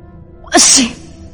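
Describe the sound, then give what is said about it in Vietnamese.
A man sneezes once at sea on a windy night, a sharp, loud burst of about half a second that rises out of a quiet background and quickly fades. “Triển Chiêu đột nhiên hắt xì.”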